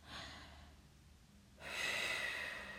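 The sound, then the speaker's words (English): Slow, deep breathing, a faint airy breath followed by a longer, louder breath, soft and unhurried with no talk. “Keep breathing in and out for me. In. And out. Nice big deep breaths. In.”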